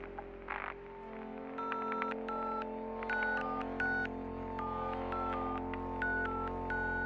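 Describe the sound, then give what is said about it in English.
Telephone keypad tones: many short, bright beeps as a number is dialed on an automated phone line, sounding in quick groups over a steady, faint background drone. “Please dial the number of the work that you desire.”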